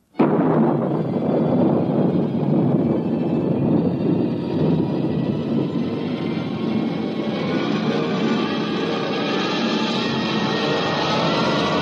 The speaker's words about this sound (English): countdown for blast off. X-5, 4, 3, 2, X-1, fire.